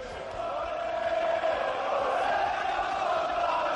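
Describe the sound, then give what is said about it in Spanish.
Football fans fill Zaragoza's stadium with a steady, massed roar as they welcome the home team before the Aragonese derby against Huesca. The cheering holds at a constant level throughout. “Y ojo, escuchen cómo sonaba el público ayer en Zaragoza para recibir al equipo maño.”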